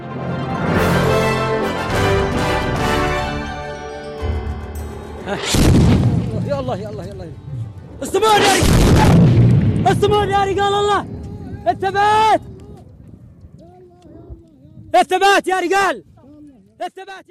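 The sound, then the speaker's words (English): Airstrike explosions in Yemen: a few heavy, booming blasts break through a chaotic scene of loud shouting and crying voices, with the crowd noise rising and falling between the impacts. “That was the sound of suspected Saudi Arabian airstrikes on UAE-backed separatists in Yemen.”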